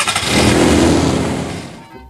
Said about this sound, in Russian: давай заводи свою колымагу наконец